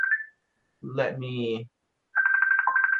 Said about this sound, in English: Sorry about the phone ringing.